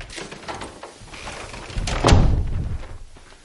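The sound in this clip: A door being shut in a tense thriller scene: a single heavy thud near the end stands out above low, muffled background noise.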